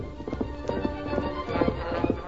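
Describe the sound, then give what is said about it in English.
Horse hooves gallop across a desert wasteland at night, making a rhythmic drumming of quick hoofbeats in uneven clusters at moderate loudness over a sustained background. “The rhythmic drumming of fast hooves rang out across the wasteland.”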